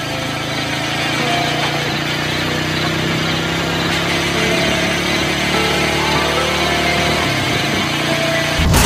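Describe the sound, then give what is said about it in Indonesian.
Many motorcycle engines droning together in a steady buzzing hum that lasts throughout and grows slightly louder at the very end. “Dumadakan saka kaduan keprungu swara motor pirang-pirang. Duh, ono apa iki?”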